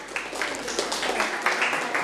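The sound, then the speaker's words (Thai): Applause from an audience for a group: a dense, steady patter of many hands clapping, holding at an even level for about two seconds with small sharp peaks throughout. “ปรบมือให้กลุ่มที่1ค่ะ”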